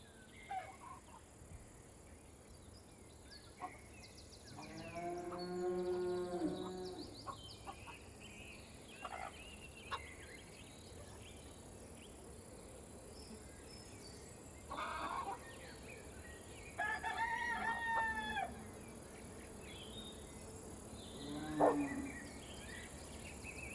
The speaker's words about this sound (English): Here we are at the farm. Wow, what a wonderful place to be.